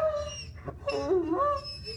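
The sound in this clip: A dog howls on cue: a few wavering, tonal howls with shifting pitch, moderately loud, with no talk over them.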